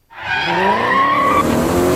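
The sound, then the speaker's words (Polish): Tires squeal loudly as a car drifts on a city street in Poland, with engine roar underneath. The sustained, piercing screech starts abruptly and holds steady for almost two seconds. “Niestety, drift na ulicach polskich miast to bardzo częste zjawisko, zwłaszcza w wykonaniu młodych ludzi. Pisk opon, dym z podku, warkot silnika.”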